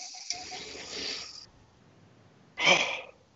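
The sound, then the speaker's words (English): A deep breath drawn in at about ninety percent capacity while holding a bodyweight mobility position: a long, soft rush of air, a pause of near silence, then a shorter, sharper burst of breath. “Now in this position, take a 90% breath.”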